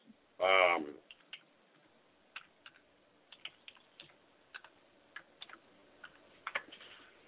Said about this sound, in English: bear with me, I don't type like you women do.